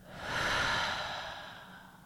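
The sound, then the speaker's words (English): A deep breath in through the nose and out through the mouth during a breathing practice: one long, soft, airy breath that swells and then slowly fades, with no talk. “Inhale through the nose. Exhale through the mouth.”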